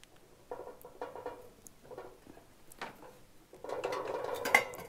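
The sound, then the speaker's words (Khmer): Quiet clatter of dishes and utensils as food is placed into a cooking pot for steaming, with scattered light knocks and scrapes, then a denser burst of clinking near the end. “យើងយកវាដាក់ចំហុយអញ្ចឹងយើងដាក់វាចំហុយនៅខាងលើឥឡូវយើងដាក់ចូលនៅក្នុងឆ្នាំង”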